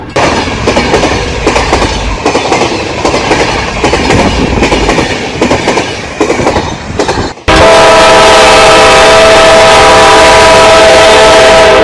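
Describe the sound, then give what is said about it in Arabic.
A train arrives at Cairo station with rhythmic clickety-clack and rolling rumble for several seconds. A loud, sustained horn then sounds steadily to the end. “القاهرة، القطار وصل القاهرة”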